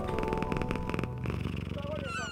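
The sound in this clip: A black cat purring, heard as a steady run of rapid low pulses under a sustained tonal background with brief whistling tones near the end.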